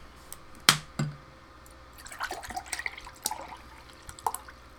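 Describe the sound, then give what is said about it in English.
A drink being poured, with a sharp clink and a soft knock early on, followed by a light, uneven trickle of liquid with a few small clinks. The sounds are faint and come alone, with no talk. “Yes, I pour myself a drink.”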